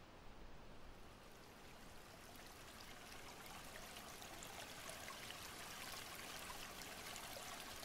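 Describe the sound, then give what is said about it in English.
Running water of a stream, a soft, steady babbling hiss that continues evenly from start to finish with no other sounds. “you come to a stream”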